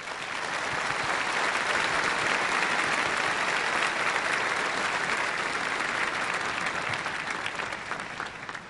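An audience bursts into applause to welcome a guest on stage, a loud, sustained roar of many clapping hands that stays full for most of its length and tapers off at the end.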